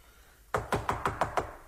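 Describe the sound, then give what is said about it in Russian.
Knocking on a door: six even, firm raps in a quick steady rhythm, each a hollow thud that fades briefly before the next, heard alone after a moment of quiet. “Кто стучит?”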